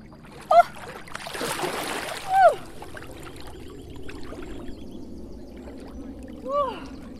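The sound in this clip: Water splashes and churns as a person wades into a river for a swim, with one broad splashing burst lasting about a second, then a low, steady trickle of moving water.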